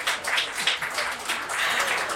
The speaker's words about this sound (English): can we have a round of applause for our guest this afternoon?